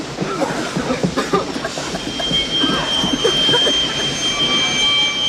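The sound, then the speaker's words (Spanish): A train rolls into a station held by German soldiers, carrying men as prisoners: a loud, steady rumble and clatter of wagons runs throughout, topped by a sustained high metallic squeal of wheels. “El tren de los hombres llega a la estación, tomada por los soldados alemanes.”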